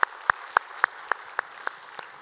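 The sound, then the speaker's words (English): Hand claps welcome online viewers into a church study session: about eight sharp, evenly spaced claps in a steady rhythm, each a crisp separate slap with nothing between them. “So if you would put your hands together, let's welcome them into our time of study here today.”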